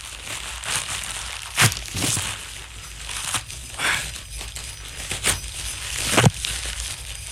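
Paper and tape are torn and unwrapped from around a new record album. Crinkling rustles run throughout, broken by several sharp ripping bursts.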